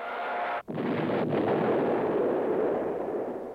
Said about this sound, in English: As the coach stares at the kid in disbelief, we hear the sound of a bomb being dropped. And as it explodes on the soundtrack, all the other kids flinch.